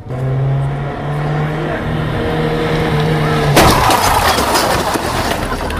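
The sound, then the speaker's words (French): A light car strikes a moped rider at 50 km/h in town: a steady engine drone runs for over three seconds, then a sudden loud crash bursts in and gives way to noisy, scraping clatter until the end. “Vous venez d'avoir devant vous un choc en agglomération à 50 km/h d'un véhicule léger avec un conducteur de cyclomoteur.”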